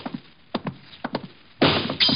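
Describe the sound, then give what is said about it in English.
Gunshots come from the house next door: many sharp, dull cracks in irregular pairs and singles, followed near the end by louder, noisier bursts. “Who are they shooting at?”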